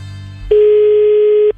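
A telephone tone sounds as a call is placed: a single steady, mid-pitched hum lasting about one second, loud against a quiet background, then cutting off cleanly.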